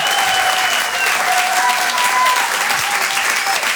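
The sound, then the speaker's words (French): Audience applause for a comedian after a live stand-up set, dense, steady clapping that stays loud and even for the whole few seconds. “Faites du bruit, s'il vous plaît, pour Brahms.”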